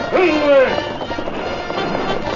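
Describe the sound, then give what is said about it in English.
Galloping hooves of cavalry horses sweeping around a bend in a canyon, a dense, rapid drumming of many hoofbeats that starts loud and eases slightly as it continues. “a detachment of cavalry swept around a bend in the canyon with a masked man in the lead”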